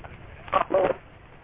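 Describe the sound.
Electronic telephone tones mark an incoming call on a phone-in show, two short back-to-back bursts rising out of a low background hiss.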